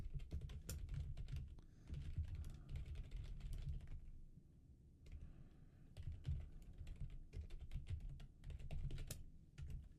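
Typing on a computer keyboard while creating a document: many quick, irregular key clicks in bursts, with a short lull near the middle, faint overall.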